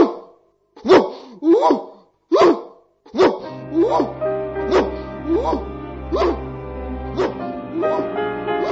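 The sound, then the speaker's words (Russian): A dog barking when it senses danger: many sharp barks at a steady, even rhythm, loud throughout, with a low hum joining partway through. “Так она лает, когда почувствует опасность.”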